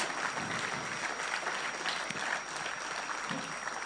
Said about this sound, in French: Donc je voudrais à nouveau qu'on leur fasse un tonnerre d'applaudissements.